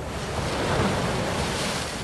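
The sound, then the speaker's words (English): Mediterranean Sea waves crash over a crumbling sea wall onto rows of concrete barriers along the coast of Alexandria. The sound is a steady, loud roar of surf with wind noise. No one talks. “Alexandria, the crash of the waves from the Mediterranean Sea sends foam over the crumbling sea wall onto the hundreds of concrete barriers set up to protect the ancient city from the rising sea.”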